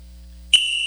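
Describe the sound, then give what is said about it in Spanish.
A referee's whistle cuts in sharply halfway through after near silence, a bright, high, steady tone that holds unbroken to the end. “Pita el árbitro y arranca tu mundial.”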